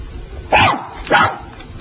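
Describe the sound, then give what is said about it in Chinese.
Dog barking: two short, sharp barks about half a second apart, loud over a faint background hiss. “快快快快快快抓住您的狗，靠边子过来。我怕狗。”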